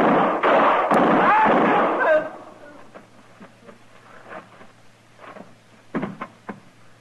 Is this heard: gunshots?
yes